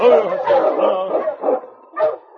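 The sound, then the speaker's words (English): A husky dog whimpers outside a cabin in the snow, letting out a series of plaintive, fairly loud whines and yips in short bursts with brief pauses between them. “Sensing death, the mighty husky was uneasy. Sergeant Preston noticed his plaintive whimpering.”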